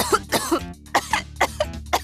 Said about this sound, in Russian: продолжал кашлять